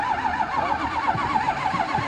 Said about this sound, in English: trying to figure out how to get this car started. There's a rumor that it may just be out of gas.